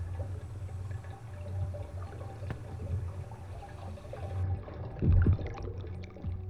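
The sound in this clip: Water splashing as people swim, a steady churning wash with low rumble underneath and a louder surge of splashing near the end.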